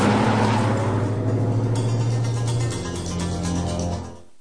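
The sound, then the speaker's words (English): Engine noise from patrol cars driving away on a highway, a low, steady motor hum that drops in level partway through and then fades out at the end. “stops on the highway, the patrol cars receding into the distance.”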